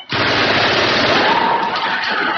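Rapid automatic gunfire at a firing range, with hot empty cartridges flying, forms one loud, dense, continuous burst lasting over two seconds with no talk.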